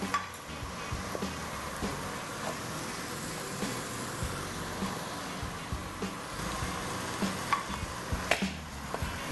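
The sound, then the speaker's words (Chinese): Food pan-frying on low heat sizzles with a soft, steady hiss, broken by scattered light ticks and pops; no one speaks. “好了，煎完了以后，现在已经转成小火了哦。”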